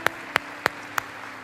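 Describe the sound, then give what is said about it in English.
Applause for Jesus in a church service comes through as four sharp, evenly spaced claps, faint and crisp, with quiet between each one. “Let's all stand to our feet and give Jesus a big round of applause. Come on. Come on, let's give it to Him.”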